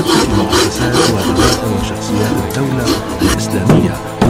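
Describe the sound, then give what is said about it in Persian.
Hand polishing of a wooden saddle being made at home: a steady rasping rub repeated in many strokes, fairly loud and even. “سیقل کاری و تزدین زین از زمان گیر است و محمد نظر یک زین را در خانده رو می سازند.”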